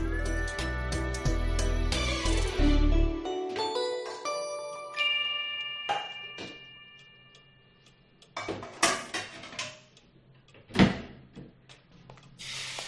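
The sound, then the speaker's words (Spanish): Kitchen clatter from frying eggs: after a short chiming, bell-like melody, pans and utensils clink and knock. A few sharp, loud metallic hits stand out among fainter rattles, and no voices are heard. “¿Qué haces, Manolo? Cocinando, Pili, cocinando. ¿Y qué cocinas, Manolo? ¡Ay, qué bien huele! Unos huevos fritos.”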